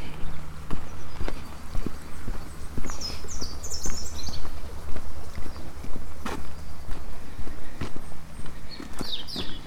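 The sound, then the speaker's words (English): Footsteps walk gingerly down a lane, a steady run of many soft, uneven hard-surface steps over a constant low hum, with a few faint bird chirps above. “walk gingerly down Hill Lane.”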